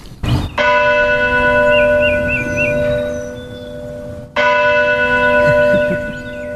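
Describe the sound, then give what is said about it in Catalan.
Church bells ring with two strong strikes, one near the start and another later. Each strike sets off a loud, rich metallic tone that hums on and slowly fades. “I tinc la sort de sentir les campanades de la Puríssima, les de la Creu Alta,”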